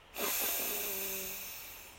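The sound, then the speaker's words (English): One long, deep in-breath during a guided breathing exercise: a steady, airy hiss that starts abruptly, lasts nearly two seconds and fades slightly at the end, with no talking. “Take a deep breath in”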